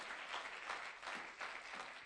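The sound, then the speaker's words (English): Applause from a church audience: dense, steady clapping that runs without a break, fairly faint, with gentle swells in intensity and no talk over it. “Give her a round of applause.”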